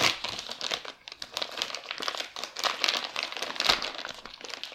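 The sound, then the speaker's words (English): Plastic bag crinkling and rustling as it is torn open at its notches, a continuous dense crackle with small irregular peaks that runs steadily for the whole stretch, with no talk over it. “There's this notches to tear off the top of the bag or the handle part.”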